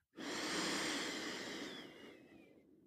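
A single long, audible breath taken during a guided postpartum meditation, starting abruptly, swelling briefly, then slowly trailing away over about two and a half seconds, with no talking over it.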